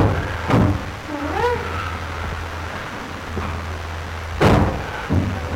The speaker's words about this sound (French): Vous entendez les coups frappés.